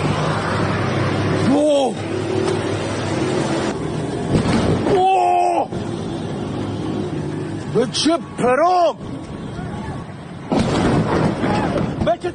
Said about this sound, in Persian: ناگهان صدای جنگنده آمد و بعد بمباران.